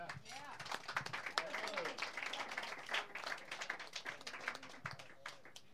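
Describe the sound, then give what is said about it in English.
Audience applause for a performer at a live music evening: dense, steady clapping fills the whole stretch, with voices mixed into the crowd noise. “And let's give Chuck one more big hand.”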